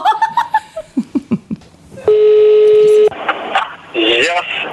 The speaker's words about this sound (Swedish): Ska vi inte ta och ringa honom?